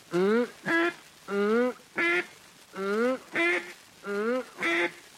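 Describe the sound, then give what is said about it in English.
Duck call blown to imitate a duck's quacking: eight nasal, reedy quacks in paired rhythm, a longer drawn note followed by a shorter clipped one, repeated four times at a steady moderate level. “With your duck call, make this sound.”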